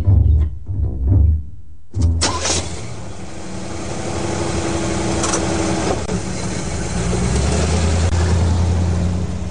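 A bus engine starts and pulls away: a broad, low mechanical rumble that rises slightly and keeps running steadily.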